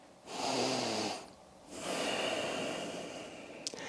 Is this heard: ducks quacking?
no